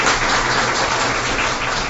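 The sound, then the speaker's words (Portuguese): An audience applauds people who travelled to attend a gathering. Dense, even clapping runs without a break for the whole clip, with no voices on top. “Uma salva de palmas para essas pessoas que se deslocaram a nosso favor, dá uma oportunidade, eu agradeço muito.”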